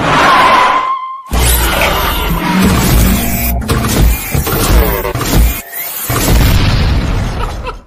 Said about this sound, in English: They done brought out the explosives, baby. It's time to drop bombs on him.